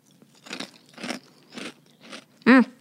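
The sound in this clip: Crunching of a crisp carrot snack mixed with beans: four crunchy chewing bursts in a steady rhythm, then a brief louder voiced murmur at the end.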